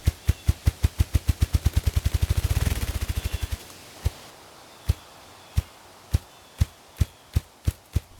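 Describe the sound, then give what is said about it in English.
A grouse drums its wings: deep, loud thumps that quicken into a rapid whirring flutter and then stop abruptly. After a pause, another slow series of separate low thumps begins, gradually speeding up. “That sound you heard was the grouse flapping its wings. It does this weird thing where it just like flaps its wings like a hummingbird.”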